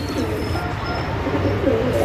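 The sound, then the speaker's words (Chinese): Pigeons coo softly as they are fed breadcrumbs in the sun among a crowd. The low, gentle coos sit under a steady wash of background noise, with no single call standing out strongly. “盲巴从衣袋里掏出一小袋面包屑，边喂鸽子边晒太阳”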